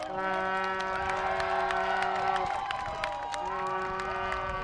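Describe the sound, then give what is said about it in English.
A crowd celebrating in the street in Watertown cheers and claps continuously over long, steady horn blasts held at several pitches. The whole scene stays loud and sustained throughout. “it turned into a real celebration there. This is the sound of Watertown shortly after the news broke.”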